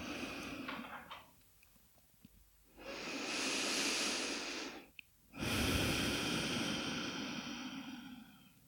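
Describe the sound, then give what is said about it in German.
Deep breathing in and out during a guided relaxation exercise: two long, airy breaths separated by a brief pause, soft and steady like a gentle hiss, with no talking. “Und dann atme tiefer ein und aus.”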